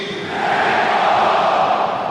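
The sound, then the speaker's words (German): Stadium crowd at the Arena auf Schalke applauds as a football player is substituted in the 69th minute. The roar is a dense, steady wash of crowd noise that swells slightly after the opening moments and holds loud throughout. “Länger als ich dachte, weil Ljubicic da sich noch den verdienten Applaus abholt.”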